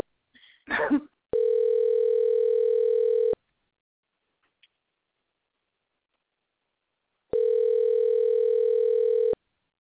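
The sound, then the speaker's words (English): Telephone line tone: two long, steady, buzzing tones of about two seconds each, separated by several seconds of silence, with a brief rustling noise just before the first. “I'm just going to let it free dial.”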